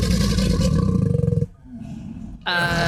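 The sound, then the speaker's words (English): A crocodile gives a deep, throaty bellow, played in an animal-sound guessing game. A long, rumbling, vibrating roar with a fast pulsing texture drops to a low grumble, then a second loud, harsh bellow begins. “Crocodile. Correct. Didn't know they made that noise.”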